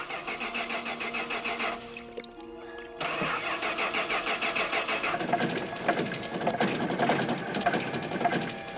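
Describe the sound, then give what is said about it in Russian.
A DeLorean car engine revs while the car shakes, a rough, rhythmically pulsing mechanical drone that dips briefly, then returns louder and more ragged. “Машина заметно трясется. Прибавь газу!”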